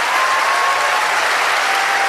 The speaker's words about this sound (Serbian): I veliki aplauz za Predraga Živkovića Tozovca.